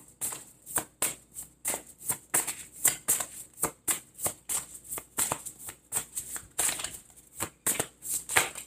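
Tarot cards are shuffled and drawn in many quick, crisp riffles and snaps that come in a dense, uneven rhythm, with no talking.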